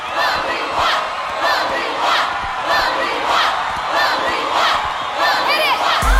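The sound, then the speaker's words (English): Loud, continuous audience cheering, whooping and shouting as judges give a standing ovation after a winner lifts a trophy on stage, with the roar of the crowd sustained throughout. “The judges give her a standing ovation.”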